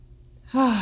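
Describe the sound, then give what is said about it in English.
A single deep breath let out as a voiced sigh, starting abruptly and trailing off slightly lower in pitch over faint background hiss. “Nice deep breath.”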